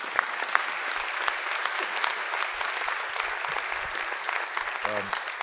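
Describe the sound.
Steady, sustained applause from an audience at a county legislative forum on mental health and substance abuse, holding an even level throughout without a break.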